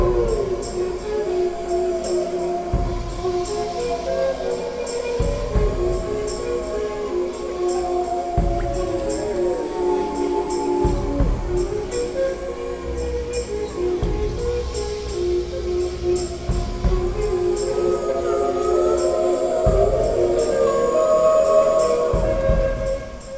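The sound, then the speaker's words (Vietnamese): Wolves howling in long, wavering, overlapping tones that rise and fall throughout. “Sói tru.”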